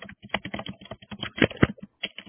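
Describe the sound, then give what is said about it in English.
Rapid typing on a computer keyboard during an online coaching session call: many sharp, irregular keystroke clicks, some louder than others, with short pauses between bursts. “We're having some typing here. I'm going to put somebody on mute.”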